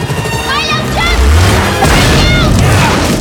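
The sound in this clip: Truck exploding on a narrow bridge, a heavy low boom with crashing, smashing wreckage, loud and continuous, with voices mixed into the din.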